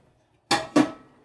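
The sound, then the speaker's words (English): Sterilizer solution is dumped out of a metal boil pot while brewing mead: two short, bright bursts of sloshing and pot clatter in quick succession, each fading away, with quiet around them. “Right now, I am dumping the sterilizer out of the boil bucket, or pot.”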